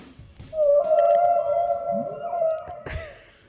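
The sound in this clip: A zebra call from an animal sound board: one long, steady, tonal cry holds loud for over two seconds, then ends in a short, harsh, noisy burst that fades.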